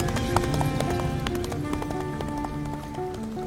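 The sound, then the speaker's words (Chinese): Cavalry horses galloping over sand, many rapid hooves drumming in a dense, continuous rhythm that stays loud from start to finish, with a sustained tonal backing beneath. “萧迟野带起万钧铁骑，踏着黄沙”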